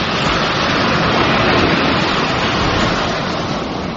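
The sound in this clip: Waves of an incoming tide make a loud, continuous roaring wash, steady and unbroken for the whole stretch, with no voices.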